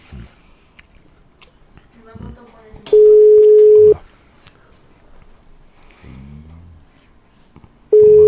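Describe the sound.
Telephone line tone while a call is placed: a clear, steady mid-pitched tone lasting about a second, then quiet with brief vocal sounds, before the same tone starts again at the end.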